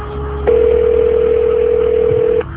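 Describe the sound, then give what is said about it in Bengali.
A steady electronic telephone tone sounds as a phone call is placed, holding one even pitch for about two seconds over a low background hum. “ঢং করো না, phone করো। এই নাও phone করলাম, কিন্তু কথা তুমি বলবে।”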